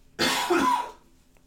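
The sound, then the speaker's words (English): A single person's cough, one sharp, loud burst that fades quickly into quiet, with no talking around it. “Excuse me, I had to cough.”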